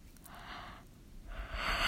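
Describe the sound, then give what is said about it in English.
A tired person yawns in two breathy, airy pushes separated by a short pause, the second louder and longer. “sorry, I'm yawning. I'm tired.”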